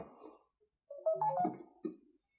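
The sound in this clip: A mobile phone ringtone for an incoming call: a brief melody of a few bright tonal notes, heard alone in an otherwise quiet room.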